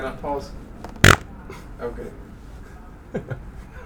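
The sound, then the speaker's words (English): A fart blown straight into a microphone: one short, loud, blunt burst near the middle, with people talking before and after it. “Farted onto my mic. I own that.”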